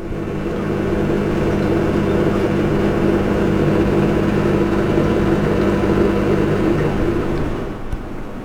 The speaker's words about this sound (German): Was Sie gerade gehört haben, ist ein Geschirrspüler.